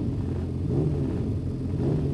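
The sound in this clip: Racing sidecar motorcycle engines on the starting grid, a steady, low, rumbling drone with a faint rough texture and no distinct revs or voices.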